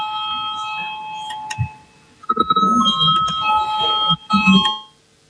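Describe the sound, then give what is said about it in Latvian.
Electric voting bell ringing in a parliament chamber before a vote: a steady, high, continuous ringing tone runs through nearly the whole clip, with some murmuring voices and movement beneath it in the second half. “Lūdzu zvanu, balsosim par 38.”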